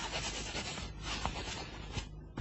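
A pen scratches across paper as someone writes on a legal certificate, making a continuous rough rasp with a few sharper strokes and a brief lull near the end. No talk.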